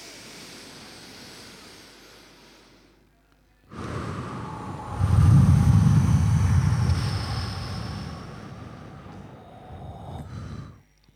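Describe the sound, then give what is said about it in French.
Deep breathing during a guided set of three breaths: a soft airy start, then a long, loud rushing breath sustained for several seconds before it trails off. “Et on inspire profondément.”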